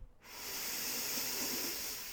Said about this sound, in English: Last three breaths with me. Fully in. And let go. Two breaths in.